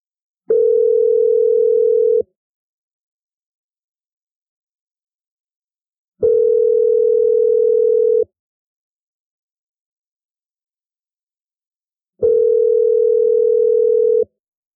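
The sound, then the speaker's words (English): Ringback tone of an outgoing telephone call: three steady, low-pitched tones, each about two seconds long, evenly spaced with silence between them. “Let's call him right back”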